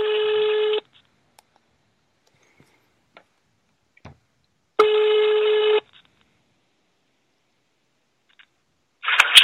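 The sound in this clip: Telephone tones sound while a second number is called: two long, steady beeps a few seconds apart with faint clicks between them, then a louder burst of noise at the end.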